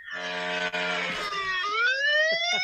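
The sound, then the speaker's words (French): A horn sound effect played from a phone app: a loud, buzzy electronic tone that holds steady, then slides upward in pitch during its second half, with no voices over it. “Pour la seule fois que je te demandais de faire un horn, tu l'as pas fait! Mon app a pas marché, c'est pour ça!”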